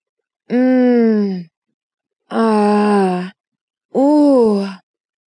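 A woman moans three times. Each is a drawn-out voiced groan of about a second, separated by silence.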